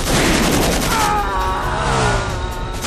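Shots from a semi-automatic revolver come in a loud, dense barrage of gunfire across the whole clip, the reports blurring into one another over a heavy low rumble.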